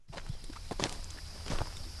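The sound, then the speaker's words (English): Faint footsteps of a farmer walking across dry, dusty ground during a drought on a farm near Fairview, Tennessee. A few soft, scuffing crunches land at an uneven pace. “Plumes of fine brown dust puff up from each footstep as the weathered farmer makes his morning”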